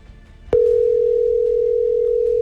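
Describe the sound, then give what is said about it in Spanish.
Telephone tone on an unanswered outgoing call: a sharp click, then a loud, steady, unbroken tone at one pitch that carries on alone to the end. “Lo voy a dejar sonar hasta el fondo para que vean que yo no cuelgo ni nada.”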